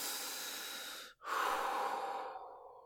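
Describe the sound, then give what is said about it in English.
One person takes a long, deep breath: a steady airy inhale, a brief pause, then a full, rushing exhale that fades away, soft and close, with no talk. “Deep breaths. Deep breaths. Do it with me. In and out. In and out.”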